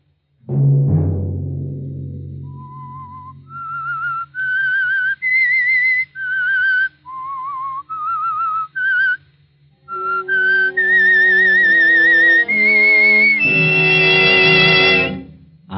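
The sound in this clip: Whistling of the theme from The Whistler radio show, a lone, clear whistled melody of held notes that climb and waver, ending on long, loud notes with vibrato.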